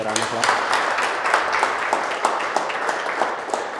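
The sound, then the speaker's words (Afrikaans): A church audience clapping hands in praise to the Lord: dense, steady applause with sharp individual claps, mixed with voices. “Amen, kom ons gee die Here hande klap,”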